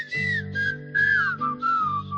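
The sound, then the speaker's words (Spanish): Cheerful whistling of a tune, with several sustained notes that glide and bend in pitch, over a soft, low, steady musical backing. “Y la gente entra silbando.”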